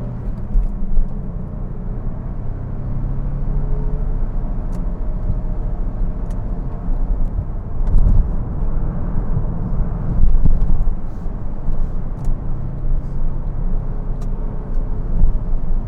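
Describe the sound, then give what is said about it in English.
A car engine in third gear at 4,000 RPM, driving at about 65 mph toward a roundabout: a loud, steady, droning roar with deep rumble and a few brief surges, with no talking throughout. “Third gear, 65 miles an hour, 4,000 RPM, coming up to this roundabout.”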